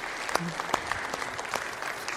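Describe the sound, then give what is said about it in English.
A church audience applauds in a steady round of clapping. The dense, even patter carries at moderate loudness from start to finish. “we're just going to give God another round of applause for that.”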